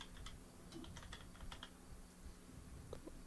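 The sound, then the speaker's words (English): Faint typing on a computer keyboard: several quick bursts of light keystroke clicks, separated by short pauses. “Just type in Jay Sebring, right?”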